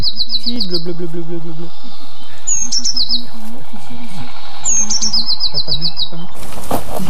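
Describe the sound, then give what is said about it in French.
Blue tit singing: three short bursts of rapidly repeated high, thin notes, with a lower steady murmur running underneath throughout. “Un mésange bleu. Une très commune aussi, mais très discrète. Elle fait toujours 2 à 4 notes répétées,”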